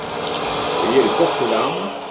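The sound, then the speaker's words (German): A forestry harvester saws through a large tree close to the ground and lifts it with its telescopic arm, heard as a continuous mechanical whirring drone with slight swells. “sägt der Harvester den mächtigen Baum dicht über dem Boden ab. Mit seinem Teleskoparm hebt er den Baum hoch und transportiert ihn kerzengerade bis zu einer Schneise, wo er ihn fallen lässt.”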